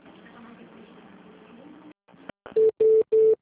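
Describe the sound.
Telephone keypad tones as a password is entered on an automated phone line: about two seconds of muffled, hissy line noise, a few faint clicks, then three loud, steady beeps of the same pitch in quick succession.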